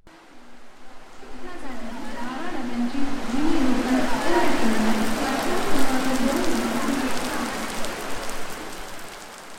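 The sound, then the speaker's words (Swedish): Heavy rain lashes against the sides of a bus in Mumbai in a dense, continuous rushing wash that swells and holds. A voice talks underneath the downpour. “Regnet som piskar längs sidorna på bussen sekunden efter att jag stigit på bryr sig inte, verkar det som.”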